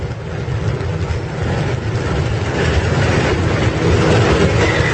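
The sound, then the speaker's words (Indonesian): Rumble inside a moving train carriage, a steady, heavy low drone of wheels and running gear that grows slightly louder over the seconds, with no voices. “Sedikit berlari, aku langsung masuk ke gerbong kereta.”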